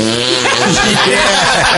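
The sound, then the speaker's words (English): A voice imitates a loud, meaty fart as a buzzing, rasping raspberry. The sound stays dense and loud without a break for nearly two seconds. “Just a meaty fart. It was loud from both ends.”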